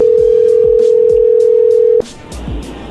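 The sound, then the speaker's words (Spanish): A telephone dial tone hums steadily for about two seconds under a series of regular clicks, then cuts off, leaving hiss and a few more clicks as a call is dialed. “le vamos a marcar de nuevo y tú le contestas, ¿ok?”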